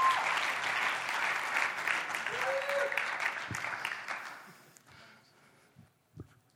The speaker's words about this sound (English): Church, why don't you put your hands together and welcome Matt on up here.